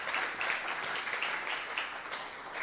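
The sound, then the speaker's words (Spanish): Audience applause at a church service on Workers' Day, with attendees clapping for themselves. A dense, steady wash of clapping holds at an even loudness throughout, with no voices. “Yo les invito a que se den un aplauso, pero para ustedes”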